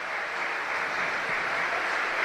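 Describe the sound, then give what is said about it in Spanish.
A stadium crowd at a football match applauds a substituted player, a steady, dense wash of clapping that holds at an even, fairly loud level throughout. “Ojo al aplauso para Miguel Cuesta.”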